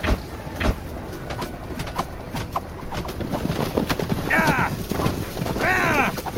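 Spooked horses in a battle under archer fire, balking at a trench: two shrill whinnies ring out over a continuous clatter of hooves and commotion.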